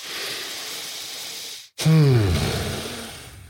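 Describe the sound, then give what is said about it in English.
A deep breath taken, ending in a loud voiced sighing exhale whose tone falls in pitch, preceded by a steady soft hiss. “And so in this example, to transmute it, I'll just take a breath.”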